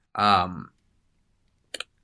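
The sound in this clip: Two quick clicks, as on a computer while looking up a Peter Jackson extended cut online, follow a short burst of voice and then silence.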